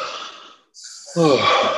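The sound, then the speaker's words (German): A deep breath during a guided breathing exercise: an airy, fading intake, a short pause, then a louder, fuller exhale with a voiced, sighing edge. “Und dann nehmt einfach noch mal drei tiefe Atemzüge”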